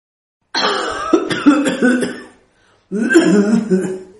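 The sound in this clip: A loud, dry cough comes in two separate bouts split by a short silence, each a raspy, voiced burst of hacking.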